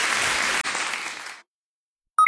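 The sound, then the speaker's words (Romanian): Short applause sound effect in a radio advert: a burst of dense clapping that jumps abruptly partway through, thins and fades to silence, then a brief bright electronic chime sounds at the very end. “Aplaudat de Rock FM.”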